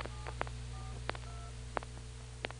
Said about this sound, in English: I'll be dialing 9299, and that doubles with whatever the real thousand group is.